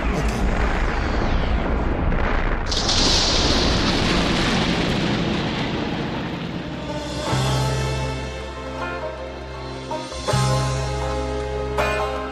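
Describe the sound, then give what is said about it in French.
A radio-drama sound effect of a computer exploding: a loud, sustained roaring blast with heavy low rumble, easing into a lower, droning rumble with a few brief surges. “Franchement, je déteste d'avoir à dire ça, mais cet ordinateur va vraiment exploser.”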